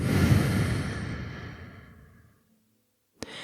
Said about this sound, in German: Atme nochmal tief ein und aus.